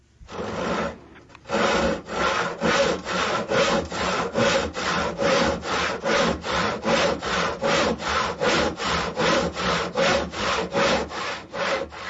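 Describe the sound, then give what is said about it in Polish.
A manual hand saw cuts through wood. It is a non-electric saw that takes real effort to use. After a short quiet start come many steady, loud back-and-forth rasping strokes in an even rhythm, with no other sound. “Piła. Bardzo dobrze. I to taka ręczna, nie elektryczna. Taka, przy której się naprawdę trzeba namęczyć.”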